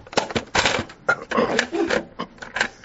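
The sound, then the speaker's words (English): Cassette tape being turned over in a recorder, heard as a rapid series of sharp mechanical clicks, clacks and rattles that come in irregular bursts for about three seconds. “So hang in there while I turn the tape over.”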